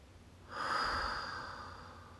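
A deep breath drawn in during a guided breathing exercise: a single soft, airy inhale swells up after a quiet start, peaks, then tapers gently while still audible at the end, with no talk.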